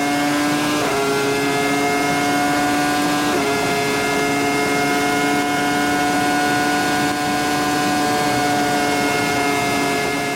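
A Formula 1 car engine screams on a long straight at the Japanese Grand Prix, a loud, steady high-pitched whine whose pitch dips twice in quick steps and then climbs again.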